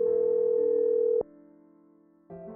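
Telephone call ringing before it goes to voicemail: a loud, steady electronic ring tone holds for over a second, drops to a faint low hum, then a second ring burst starts at the end.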